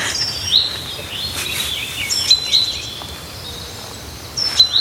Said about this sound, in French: Et puis il y a le pinson qui est là.